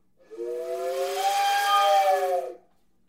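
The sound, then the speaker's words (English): A voice imitates a train whistle, producing one loud, breathy, sustained whistling tone for a little over two seconds before it cuts off. “Even the train whistle, just kind of blowing into it doesn't sound as realistic as kind of like a, you know, I'll show you like a more realistic.”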